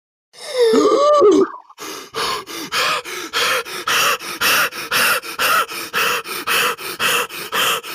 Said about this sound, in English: Breathe if yes.